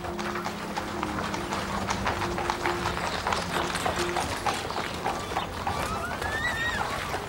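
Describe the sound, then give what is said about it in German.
Hooves of a horse-drawn cart clip-clop as it rolls out through a town gate, a steady run of many hard, rapid knocks over continuous rumbling wheel noise. “Und geduckt im Schatten eines hinausrollenden Pferdefuhrwerks entging Martha ihrer Aufmerksamkeit.”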